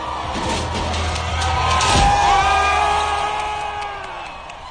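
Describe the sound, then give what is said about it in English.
Protesters in a crowd cheer and whoop as a statue is toppled, a loud sustained roar of many voices with rising yells, swelling in the middle and easing off toward the end. “The crowd of protesters cheered.”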